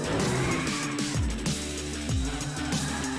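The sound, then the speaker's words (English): Tires squeal as a car drifts in a racing video game, over a dense, steady roar with musical tones and a couple of sharp downward engine sweeps. “Ooh, drifting. Precision, combined for precision drifts.”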